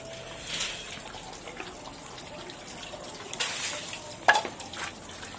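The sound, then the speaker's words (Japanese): Running tap water as hands are washed under it, a faint continuous trickle broken by a few soft splashes, with one sharper splash near the end and no voices. “じゃあ手洗いましょう。 はい。まず手を洗いましょう。”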